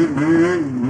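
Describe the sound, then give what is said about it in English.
A snowmobile engine revs near the frozen Moosehead Lake in Maine, giving a loud, steady, mid-pitched mechanical drone that holds for under a second. “the small town of Greenville, population 1,600, is a haven for snowmobilers who fill up at gas stations and zip around the frozen reaches of Moosehead Lake.”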